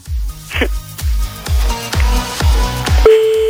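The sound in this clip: A telephone call sounds as a quick run of evenly spaced tone pulses, about two per second, that ends in a single steady held tone.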